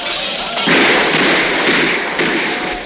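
Rifle gunfire in a radio drama, a sustained, loud crackling volley of overlapping shots that fills the whole clip with little break.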